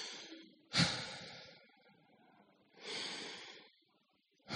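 Slow exhaled breaths during a guided breathing exercise: a few soft, airy releases of breath, one starting sharply and trailing off, another swelling gently and fading, with quiet pauses between and no talking.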